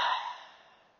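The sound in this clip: A single deep breath, heard as one airy exhale that starts full and fades steadily away, taken during a guided meditation with no voice over it.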